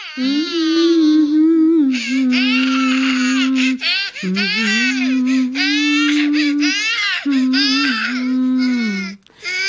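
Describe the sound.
A baby boy cries loudly in about three long, sustained wails separated by brief catches of breath, the high, strained voice rising and sagging within each wail.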